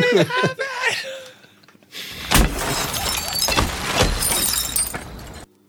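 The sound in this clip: Glass shatters as a car is smashed, a sudden loud crash followed by sustained crunching and breaking noise, with people talking and chuckling just before.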